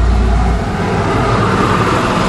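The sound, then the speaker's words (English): A convoy of cars and semi trucks passing in traffic makes a continuous loud roar of engines and tire noise, with a deep rumble that stays steady throughout. “A whole bunch of cars. This is like a big old, like a convoy, and I gotta turn left through it somehow. Big old semi and stuff back there.”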